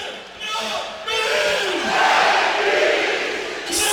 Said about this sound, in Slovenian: Slišite v ozadju, kako so vzklikali zdaj to ime navijači Celja, ime Benjamina Verbiča, Vojničana, ki se je po več kot desetletju vrnil v klub